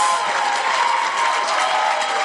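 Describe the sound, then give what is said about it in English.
A group of students clapping together in a class, producing a thick, continuous patter of hand claps at an even level throughout. “I don't know why you are clapping today”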